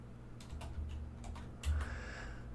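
Computer keyboard typing: a quick run of soft key clicks over a low, steady hum.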